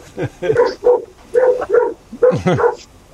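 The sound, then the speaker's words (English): A pet dog barks in a string of loud, short, harmonic woofs, grouped in quick clusters with brief pauses between them. “your dog doesn't like the idea either, does he? Oh, you can hear my dog.”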